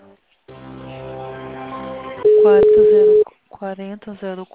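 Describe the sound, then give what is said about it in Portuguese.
Telephone line tones while a call is transferred to an assistant: a steady humming tone gives way to a louder single tone held for about a second, then a voice speaks briefly. “Vou transferir sua ligação para o assistente.”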